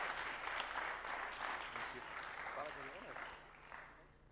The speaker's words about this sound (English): So let's just give God a hand for this man of God as he comes to share.